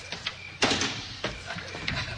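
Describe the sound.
A house door is opened with a few soft clunks and a brief rattling sweep, one sharper knock near the start standing out, all fairly quiet.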